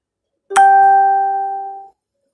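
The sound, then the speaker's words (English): A single bright chime from an alarm rings out, one clean tone with clear overtones that holds steady for about a second and a half before fading away, with no voices. “So I have to get off here. That was my alarm.”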